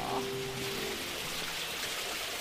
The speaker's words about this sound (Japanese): お、ここは何ですか？水のモニュメントだ。 滝ですね。